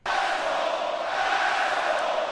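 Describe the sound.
A large crowd at a wrestling event chants together. A loud, continuous roar of massed voices starts abruptly and stays steady throughout.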